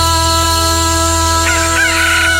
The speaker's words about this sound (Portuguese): O galo cantou.